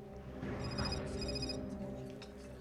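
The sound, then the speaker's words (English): A mobile phone rings in a diner before it is taken out of a bag: a faint, bright electronic ringtone in a couple of short bursts over steady, dense background noise. “he takes the phone out of his bag. Moshimoshi, Hiro.”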